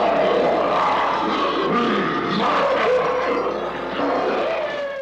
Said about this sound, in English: That was the Abominable Snow Monster, a.k.a. the Bumble, from the old stop-motion Christmas special Rudolph the Red-Nosed Reindeer. One of the Bumble's vocalizations is a sound effect called the King Kong Roar.